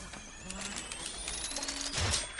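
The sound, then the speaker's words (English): Rapid keyboard typing, a dense run of quick clicks, with a few other faint sounds mixed in. “Could you please type faster?”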